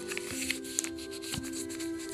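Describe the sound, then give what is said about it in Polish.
Paper is folded, a paper triangle doubled over corner to corner, making faint soft crinkles and a few light creasing taps over a quiet, steady hum. “Trójkąt z papieru złóżcie jeszcze raz na pół. Aha, dobra. Róg do rogu, tak po prostu,”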